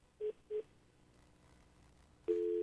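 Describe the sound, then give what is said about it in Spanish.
Telephone line tones after a dropped call: two short matching beeps, a quiet gap, then a loud steady tone that holds to the end. “parece que perdimos la llamada con eh, César Mendoza.”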